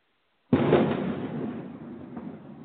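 A cannon boom sound effect bursts in suddenly after a short silence, one loud blast whose rumbling tail fades slowly over about two seconds.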